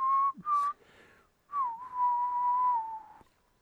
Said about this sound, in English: is this good radio? Just me whistling.